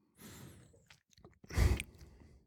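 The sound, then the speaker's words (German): A big sip of beer: a drawn-out slurp, then a louder, breathy burst near the end, with no talk. “Ich glaube, ich muss auch einen größeren Schluck nehmen.”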